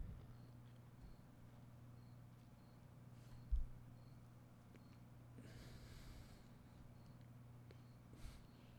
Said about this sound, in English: the crickets are talking in the background.